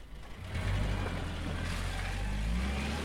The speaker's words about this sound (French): La Mercedes repartit.